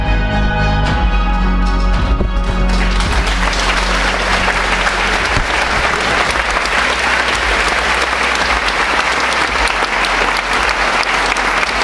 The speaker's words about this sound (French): Déjà des applaudissements, hein. Nourris, vous verrez après à la fin, c'est encore plus.